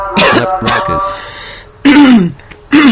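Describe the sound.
Coughing and throat clearing from a recording being trimmed during an audio editing session: a few harsh, raspy bursts separated by short pauses, the later ones louder and more forceful.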